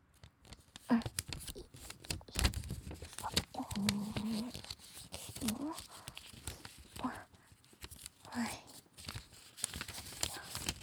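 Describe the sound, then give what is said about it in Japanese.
Origami paper being folded and handled, giving irregular crisp rustles, crinkles and soft creasing sounds that come and go at a moderate level without a steady rhythm. “兄さんはそこで折り紙の音でも聞いててね。”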